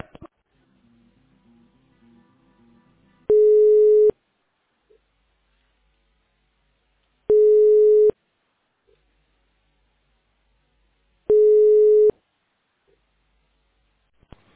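Steady telephone tones while a call is transferred: three identical mid-pitched beeps, each just under a second long, evenly spaced by a few seconds of near silence.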